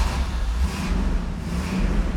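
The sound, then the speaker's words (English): A 1978 Pontiac Trans Am driving along, a steady low engine and road rumble that holds evenly throughout with no talk. “All right, let's hit the road. So I would like you all to come along for a little drive with me. I'm driving the 78 Trans Am.”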